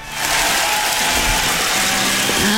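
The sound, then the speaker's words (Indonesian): Applause for a guest on a Malay radio show after a riddle answer, a dense, steady wash of clapping that holds at an even, fairly loud level throughout. “Jadi kita bagi tepuk sikit lah untuk Kak G”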